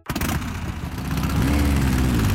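A vintage motorcycle engine revs loudly in a steady, rumbling roar that grows a little fuller and louder after the first second, with no talking.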